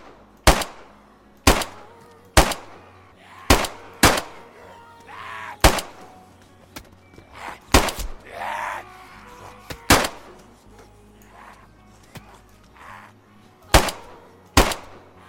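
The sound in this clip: Gunfire from a zombie shooting video game rings out as many loud, sharp cracks at uneven intervals, with quieter stretches between some of the shots.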